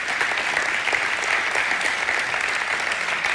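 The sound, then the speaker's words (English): Applause from a church audience: dense, steady clapping that holds at an even loudness throughout, with no voices on top. “Can we give these people a hand?”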